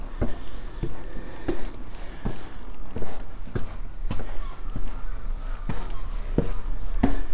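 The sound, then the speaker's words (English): Footsteps climbing a steep flight of stone steps on Cox's steps up to Clarence Hill, a steady series of firm, evenly spaced treads over a low background rumble. “Climbing a steep flight of stone steps.”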